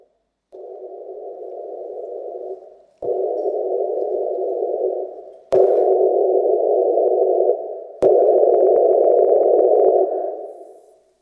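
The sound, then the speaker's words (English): Hissing test noise plays in four steady bursts of about two and a half seconds each, every burst louder than the last in 10 dB steps, starting near whisper level and separated by brief clicks. “The noise that you're about to hear will step in 10 dB increments starting around a whisper.”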